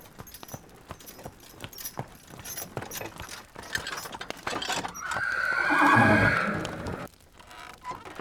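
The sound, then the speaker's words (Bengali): A horse whinnies loudly from a two-horse carriage as it arrives, with clopping hooves and rattling carriage mechanisms beforehand. The neigh is long and high, and it fades out after the peak. “Well ভদ্রলোক এসে গেছেন দু ঘোড়ায় টানা গাড়ি বলে মনে হচ্ছে”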